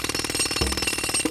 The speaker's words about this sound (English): because that's the sound of Neutrogena's new heavy-duty pore jackhammer